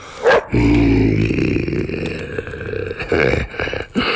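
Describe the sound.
A dog growls and snarls after a short sharp yelp. The loud, rough growling runs on without a break to the end, with a few sharper bursts. No one speaks.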